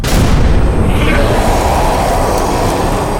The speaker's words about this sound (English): Light him with a flash grenade. Right. 3, 2, 1.